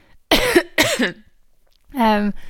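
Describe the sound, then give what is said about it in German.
A woman coughs twice in quick succession, sharp and loud. After a short silence comes a voiced, droning throat-clear. “ich werde übrigens mein Husten nicht rausschneiden oder mein Räusper, also muss jetzt einfach mit dem leben.”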